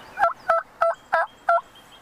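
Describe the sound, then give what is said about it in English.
Wild turkeys gobble at a bird feeder, two birds feeding on seed alongside a squirrel, giving five short, evenly spaced, rattling gobble bursts at a moderate level with no talking. “They're eating bird seed along with the squirrel out of the bird feeder. Oh, they're so happy. Oh, yeah. Those are two turkeys that have adapted to their surroundings.”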